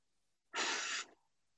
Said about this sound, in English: I just want you to take a deep breath in as I breathe in the light and I breathe out the guilt.